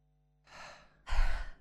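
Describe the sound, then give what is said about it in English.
A breathing exercise of a double inhale through the nose followed by a long exhale through the mouth: a soft, airy intake, a brief pause, then a louder, fuller sighing breath out, heard alone. “So double inhale through the nose, pause at the top for a second, and then exhale through the mouth.”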